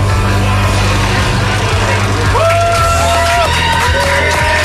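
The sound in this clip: A crowd cheers loudly and continuously, riled up by a cheerleader, forming a dense roar of voices with whoops and shouts rising above it.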